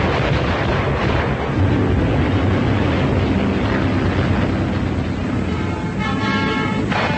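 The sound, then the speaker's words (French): Battle noise from the Battle of Madrid, with artillery fire, aircraft and tanks supporting a Nationalist infantry attack: a dense, continuous roar with no clearly separate blasts. “Après une préparation d'artillerie, l'infanterie des nationaux, appuyée par l'aviation et les chars d'assaut, part à l'attaque.”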